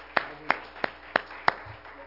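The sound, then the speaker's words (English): Congregation clapping in praise at a church service: five sharp, evenly spaced hand claps at a moderate pace, fairly quiet, each a crisp crack over a low background. “Let's give the Lord a hand clap of praise as we prepare.”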